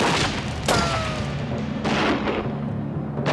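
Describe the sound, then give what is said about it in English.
Gunfire in a shootout as deputies take cover and shoot back after their sheriff is hit. A few sharp gun cracks stand out over a dense, rumbling wash of background noise and continuous firing. “the others take cover and open fire”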